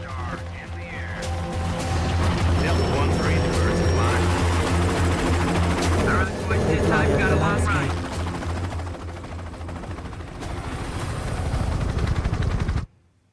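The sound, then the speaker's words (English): Several helicopters lift off together, a loud, dense, continuous rotor and engine roar that stays heavy throughout, dips briefly partway through, then swells again before cutting off abruptly. “A pilot pushes a throttle lever forward, and the helicopters take off in unison.”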